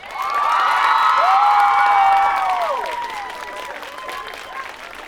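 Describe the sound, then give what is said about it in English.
An audience applauds and cheers as the guests of a film event are welcomed onstage. The clapping is loud and dense, with shouts and whoops on top, and after about three seconds it eases into lighter, steady clapping. “Packed house. Great. They're screaming out there. I know, it's fabulous. Wild.”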